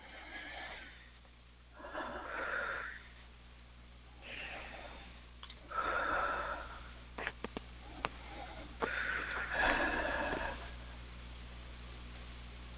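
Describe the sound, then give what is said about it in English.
Slow, deep breaths during a guided session, each a soft, airy inhale or exhale, with quiet pauses and a few small clicks between them. “3 nice deep breaths.”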